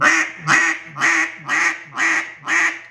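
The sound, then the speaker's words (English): A mallard duck call blown by a person gives six soft, even clucks in a steady rhythm, each a short nasal quack-like pulse. “Now what's very important is I like to do the subtle cluck.”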